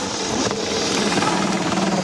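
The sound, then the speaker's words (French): A loud, steady engine drone from an Audi Quattro rally car's powerful five-cylinder engine, a continuous, even roar with no clear gaps or separate events. “La Quattro, ouais, ce fameux 5 cylindres de fou.”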